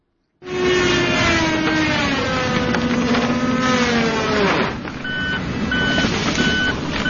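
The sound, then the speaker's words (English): Chainsaws and trucks cut trees at a historic golf course in a park in D.C. A loud, steady engine drone slides slowly down in pitch, followed by a run of evenly spaced reversing beeps. “That's the sound of chainsaws and trucks yesterday at East Potomac Park here in D.C. as the National Park Service began a new round of tree cutting at the historic golf course near the National Mall.”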